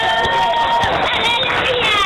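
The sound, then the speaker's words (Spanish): Church audience cheering and applauding after a healing testimony, a loud, continuous mass of overlapping shouting voices with a few clap-like hits underneath. “¡Aplauda para Cristo!”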